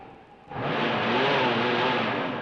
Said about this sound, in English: Sure I can. The motor works, see?